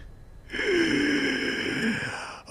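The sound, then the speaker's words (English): A voice imitates a laboured, wheezing breath being drawn in: one long, rasping, moderately loud inhale of about two seconds with a hoarse, strained tone. “And the breath it's drawing is very labored and wheezing. As he starts to draw breath, he's going to start to speak.”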